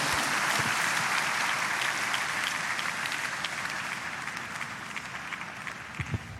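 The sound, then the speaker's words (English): A church audience applauds in praise during a service. Dense, even applause fills the whole stretch and gradually eases in loudness, with a few louder claps standing out near the end. “Church, let's celebrate the Lord with a big hand of praise is alive forever.”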